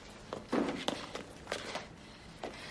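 Footsteps walking up to a terrace: several soft, irregular steps with scuffing, moderately faint over low background noise.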